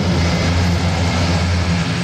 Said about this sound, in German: Ein großes, graues Transportflugzeug mit lauten Propellern hebt ab.